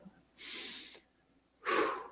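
A person breathing: two clear, airy breaths with a pause between them, the second stronger and louder than the first, with no talk.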